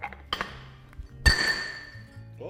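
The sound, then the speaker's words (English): A welded metal part cracks under a 25-ton hydraulic press: one sudden sharp snap with a bright, ringing metallic ping that fades over a moment, preceded by a softer tick; fairly faint overall. “We got a break. Wow, very interesting. So its malleability when cold isn't super good because though it's fairly soft, it does like to break. Cold under a 25-ton hydraulic press.”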